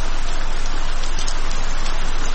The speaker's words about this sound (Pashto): باران تیز شو، داسې شرشورې شو لکه ناوې چې له اسمانه راخوشې شي.